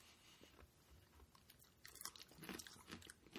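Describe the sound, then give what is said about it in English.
Faint crunching as teeth bite into a crumbly, cocoa-scented snack, a series of soft, brittle cracks and chews that grow a little louder toward the end. “I'd say just bite it. It's very crumbly.”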